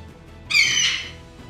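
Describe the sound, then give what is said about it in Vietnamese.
An eagle's cry: one shrill, harmonic screech lasting about half a second, loud over a faint low hum before fading away. “Lại thêm một tiếng chim ưng kêu lên chấn động trường không.”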